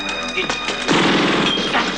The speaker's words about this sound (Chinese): 在两人奔出百货公司的最后一刻，炸弹爆炸了。